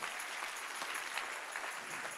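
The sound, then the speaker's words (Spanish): Steady applause from an audience during a sermon, a dense, even patter of many hands, fairly faint and continuous throughout. “Ay, no, pero si ese es el aplauso.”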